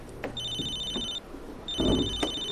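A telephone rings in two bursts of bright, warbling electronic trills, each under a second long, separated by a short gap over low background noise.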